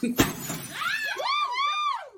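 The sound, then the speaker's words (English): One sharp crash rings out as a young man smashes an object at a smash pop-up event, followed by a voice letting out a rising and falling whoop. “this woman and her nephew decided to stop in and smash some stuff. Well, here you go, folks. Young man getting ready to smash it.”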